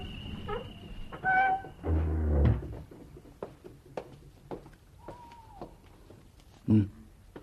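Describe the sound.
A door being opened in a drama scene, with creaking and knocking thuds clustered early, then scattered faint clicks and one more soft thump near the end.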